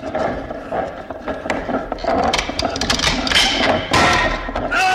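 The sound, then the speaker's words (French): Mechanical clattering, grinding and ratcheting as someone operates a time machine. The dense scraping and rattling continues throughout and grows slightly louder in the second half, with bright hissing bursts. “À cet instant, le professeur manipule la machine à voyager dans le temps de son vieil ennemi, feu le professeur Milhok.”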